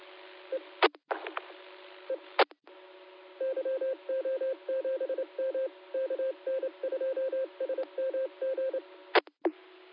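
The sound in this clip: Telephone keypad dialing tones sound as someone calls a 900 number: many short, even beeps in quick groups, framed by a few sharp clicks and line beeps, with no talk.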